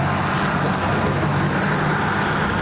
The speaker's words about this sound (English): So the guy drives away.